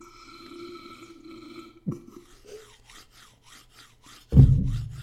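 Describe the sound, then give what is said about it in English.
Two drumsticks are rubbed together, making a run of faint, dry, rasping scrapes in an uneven rhythm over a low hum, with a louder rough burst at the end. “It's me rubbing my sticks together.”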